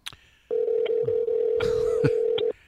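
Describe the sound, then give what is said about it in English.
A telephone call being dialed: a steady, mid-pitched tone holds for about two seconds, with a few short electronic beeps around it and no talk. “He doesn't have a Skype account. I gotta actually call him.”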